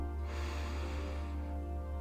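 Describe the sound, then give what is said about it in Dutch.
One deep, soft inhalation during a guided breathing exercise, an airy breath drawn in for about a second and quiet overall, over a steady low hum. “En dan wil ik graag nog dat we even een aantal keer samen diep inademen om dan rustig deze oefening af te sluiten. Adem in.”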